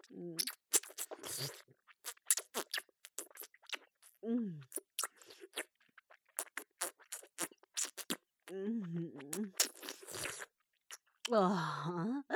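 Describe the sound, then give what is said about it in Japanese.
Wet licking and mouth sounds in an ASMR roleplay: many close, soft smacks and clicks in an irregular rhythm, with brief vocal sounds rising at a few moments. “乳首、舐めちゃいますわね。”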